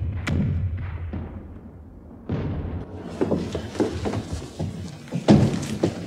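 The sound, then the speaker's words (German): Heavy cannon fire from an artillery bombardment by Versailles forces against the Paris Commune: a rumbling low bed broken by a series of deep, irregular booms and thuds of varying loudness. “Sie hören die Kanonen von Versailles.”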